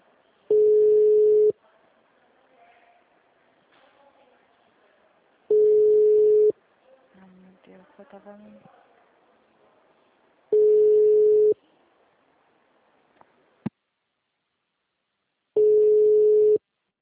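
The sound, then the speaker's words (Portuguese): A steady telephone line tone after a dropped call sounds as four loud, one-second beeps at the same low pitch, separated by long pauses with faint background noise and a sharp click. “Caiu a ligação.”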